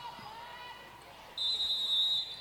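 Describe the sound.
A basketball dribbled on the court during a game, with quick bounces against steady arena noise that grows louder partway through.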